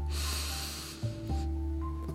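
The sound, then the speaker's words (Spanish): Short, full inhalation in a breathing exercise: an airy intake of about a second over a low steady hum. “Vas a inhalar corto y completo”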